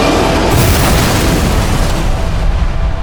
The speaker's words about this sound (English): Someone's launched a missile at us. That's a Silurian weapon. Brace for impact.